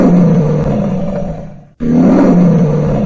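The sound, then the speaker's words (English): A lion roars in deep, loud, sustained bursts, with one brief pause in the middle before the rumbling roar resumes at full strength. “The right answer is a lion. Well done if that's what you said. The sound you heard was a lion roaring.”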